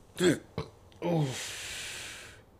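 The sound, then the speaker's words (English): A person lets out a short, throaty burp, followed by a second guttural voiced sound that trails off into a soft breathy hiss. “sorry, I had to burp.”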